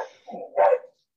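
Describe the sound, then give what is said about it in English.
A dog barks briefly, with a softer low sound just before a single louder, sharp bark, then quiet. “Sorry, that's my dog.”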